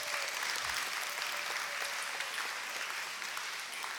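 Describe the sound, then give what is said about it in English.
An audience claps steadily to welcome a guest at a morning gathering, a dense, even patter of applause that fades slightly toward the end. “Y'all welcome my friend Grosdon. Give him a hand.”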